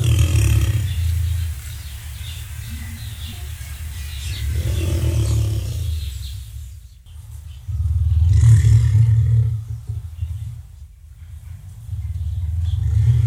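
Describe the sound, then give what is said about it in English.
A musk ox, a large hoofed mammal of the northern latitudes, calls with several deep, rumbling roar-like bellows, each swelling and fading with quieter pauses between them. “And that is a musk ox, and they are a large hoofed mammal found mostly in the northern latitudes of planet Earth.”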